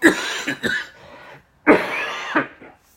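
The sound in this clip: Coughing from a tickle in the throat: a few rough, forceful coughs in two separate clusters with a short pause between, moderately loud and with no talk.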